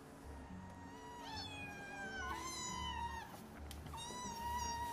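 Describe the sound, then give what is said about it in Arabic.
A cat and her kittens meowing in an online video, the mother not answering her young: a few high, wavering mews in separate bursts, fairly faint over a low background murmur. “شو عم يعمل هذا؟ القطة ما بدها ترد على صغارها.”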